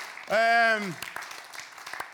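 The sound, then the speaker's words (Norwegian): Scattered, faint handclaps from a small group of youths follow a single drawn-out vocal cry, sparse and uneven rather than a full round of applause. “Jeg synes ærlig talt de fortjener en mye bedre applaus enn det dere klarte å spare opp.”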